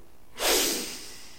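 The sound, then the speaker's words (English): A single deep breath drawn in: a loud, airy rush that swells abruptly, then slowly tapers away over about a second, alone without talk. “Take a deep breath.”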